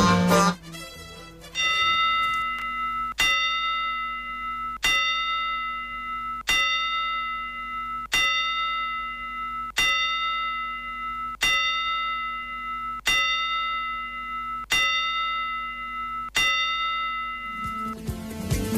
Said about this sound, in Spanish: Pedimos las 10 campanadas.